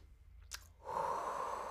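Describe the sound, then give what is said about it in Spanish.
Deep breathing while stretching: a brief, sharp intake of air, then a long, steady, airy exhale that lasts to the end. “algo que hace más fácil el estiramiento es respirar profundamente.”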